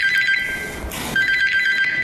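A telephone ringing with an incoming call, an electronic trilling tone in two bursts separated by a short pause.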